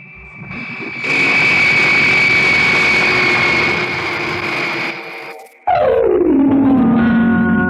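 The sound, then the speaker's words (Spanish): An aircraft descends to land, with a loud, steady engine roar carrying a high whine. It drops out briefly, then returns as a loud roar whose pitch falls away. “Estoy descendiendo ya. Ahí veo tierra. ¡Oh, tierra! Buscaré un sitio apropiado para aterrizar.”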